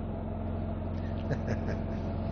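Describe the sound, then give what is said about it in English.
A truck cleaning portable toilets runs with a low, steady engine drone, fairly faint and continuous. “Well, it's not a squirrel today. It's a truck that is cleaning the biffies.”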